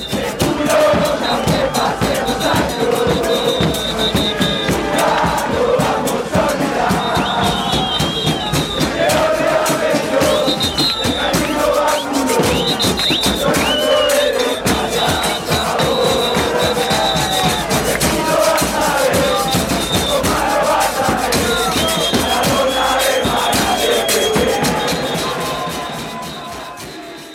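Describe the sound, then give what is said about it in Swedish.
Football supporters chant long, continuous songs as a massed crowd, loud and steady throughout with many voices blending into rhythmic, repeating melodic lines before easing slightly at the very end. “Här är det enormt långa ramser, och det är vacker skriven text och fyndig, och det finns gliringar och det finns hyllningar”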